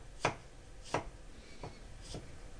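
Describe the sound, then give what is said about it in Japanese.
A knife on a cutting board cuts peeled ginger into thin strips: four faint, crisp chops at an uneven pace, with no talk. “薄くスライスしたニンニク、生姜を端から細切りにしていきます。”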